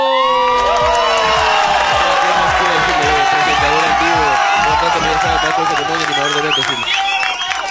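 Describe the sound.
An audience cheers, whoops and claps for a singer in a loud, continuous mix of shouting voices and applause. The noise holds strong throughout and dips slightly at the very end.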